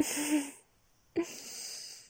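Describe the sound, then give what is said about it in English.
A soft, breathy gasp comes as a quiet airy intake, followed after a short pause by a second sharper breath that trails off, with no talk. “And there's that little gasp.”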